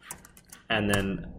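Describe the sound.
A computer keyboard gives a few soft, quick key clicks, then someone starts talking.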